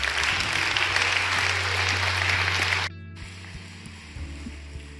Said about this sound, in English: Hey, can we just put our hands together this morning and welcome some people into God's family?